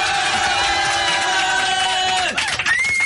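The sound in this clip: Cheering crowd giving a standing ovation in a radio studio, a loud, steady wash of cheers and whoops with sustained tones running through it and a brief dip near the end.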